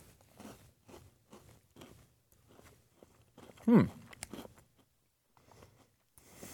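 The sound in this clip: One crisp, loud bite into a Peanutter cookie, hard on top and bottom with a chocolate coating and peanut pieces. Faint soft handling noises come before it, and a few quieter crunches follow.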